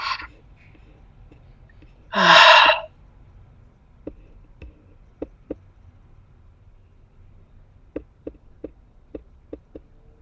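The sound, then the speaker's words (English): A deep breath in is taken during a guided breathing exercise at a workshop: one loud, airy inhale lasting under a second. Afterward there is near silence broken by a few faint clicks. “Deep breath in.”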